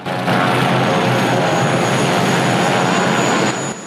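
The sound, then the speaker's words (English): Helicopter rotor blades and engine roar as the aircraft touches down at a forest edge amid flare smoke. A dense, steady rumble holds for a few seconds, then eases off at the end. “As it touches down, the rotor blades whisk the smoke into a fleeting whirlwind.”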